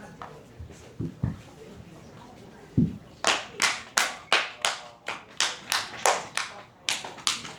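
Hands clapping firmly in a traditional Chinese medicine self-treatment practice, a regular series of about fourteen sharp, loud claps in a steady rhythm, preceded by a few softer taps and low murmuring.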